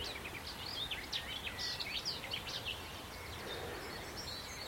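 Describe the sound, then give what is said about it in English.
Garden warbler singing from outgrown hedgerow trees on a walk up Sugar Loaf mountain, a faint, rapid, high-pitched warbling stream of chortling notes that runs for a few seconds before trailing off. “Ah, it's a garden warbler here.”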